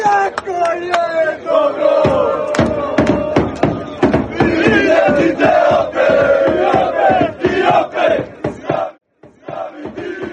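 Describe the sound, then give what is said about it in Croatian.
Loud, dense crowd of Croatian football fans in Rotterdam, a body of over 20,000, cheering and chanting in sustained waves punctuated by many sharp claps and bangs, with a brief drop near the end. “Veliki vjetar u leđe našim vatrenima svakako će biti fenomenalni i mnogobrojni navijači. Očekuje ih se preko 20.000, a od jutra je Rotterdam preplavljen kockicama, atmosfera je sjajna.”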